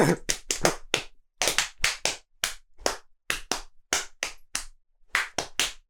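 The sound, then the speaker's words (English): People slap their own bodies by hand, producing many sharp, loud slaps in quick clusters with short gaps. The uneven, loosely rhythmic pattern runs throughout, and no one speaks. “slapping your body and me singing the first song that comes into my head.”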